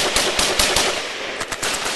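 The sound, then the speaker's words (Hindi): Rapid battle gunfire: many sharp cracks in quick, irregular bursts over a continuous noisy backdrop, loud throughout. “दुश्मनों पर गोलियों की बौछार शुरू कर दी।”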